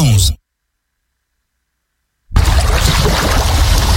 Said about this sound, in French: Fermez les yeux. Vous entendez la mer, le vent doux sur la peau et les mains de Frédéric